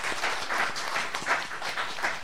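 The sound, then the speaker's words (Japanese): Encouraging applause from a church gathering, a continuous, even patter of many hands clapping at a moderate level throughout, with no speech over it. “励ましの拍手お願いします”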